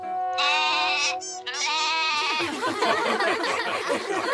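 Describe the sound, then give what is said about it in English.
Goat bleats in two long, wavering, tremulous calls with a short break between them, followed by a stretch of rough, noisy sound. “Oh, dear goat. Where are you, goat? Where have you gone?”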